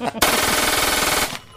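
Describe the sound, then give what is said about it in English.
A Glock 18C pistol fires on full auto in one loud, rapid burst of about a second, the shots merging into a dense, harsh roar before it cuts off. “Full auto. And it's going to take how many rounds? 30 rounds, 2.2 seconds.”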